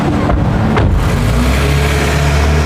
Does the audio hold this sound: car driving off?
yes